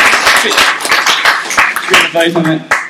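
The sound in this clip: An audience cheering and applauding, with uneven bursts of hand claps and voices mixed in, loud and irregular with brief dips between bursts.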